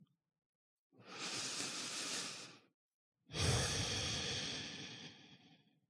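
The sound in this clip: Two deep, slow breaths during a guided breathing exercise, each a long, airy rush of breath separated by a short pause; the second is slightly louder and fades gradually. No one speaks.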